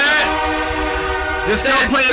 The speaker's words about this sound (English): Don't get hit by a train. Fucking train. How many HP does a train have?